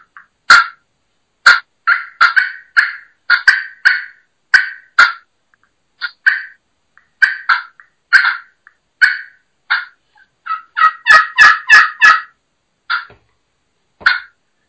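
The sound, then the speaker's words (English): Turkey clucks made on a pot-and-peg friction call, a striker drawn across the call's surface: many short, sharp, high clucks in a loose rhythm, bunching into a quick flurry near the end. “So, let's hear you do some clucking on a friction, on a pot and peg.”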